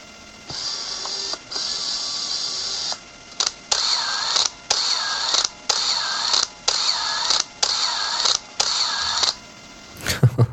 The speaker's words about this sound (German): da zuckt es durch die Kamera, wenn der Autowinder den Film transportiert.